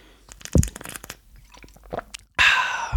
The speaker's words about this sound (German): Und darauf trinke ich erstmal einen Schluck.